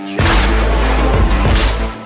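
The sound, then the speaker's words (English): A fully automatic gun fires at a Bud Light can, making a loud, continuous roar of rapid shots with a heavy low boom. The burst lasts about two seconds. “Now he got a full automatic and he's shooting at the Bud Light can.”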